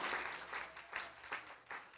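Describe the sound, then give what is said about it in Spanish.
Congregation applause during a church service: faint, steady clapping that swells and fades a few times over two seconds. “Dele un aplauso de alabanza al Señor.”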